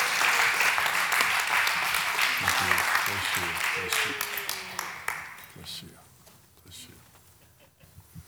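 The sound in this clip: Audience applause welcoming a speaker to the stage at a church service: dense, sustained clapping that tapers off after about five seconds, leaving a few scattered claps and a quieter room.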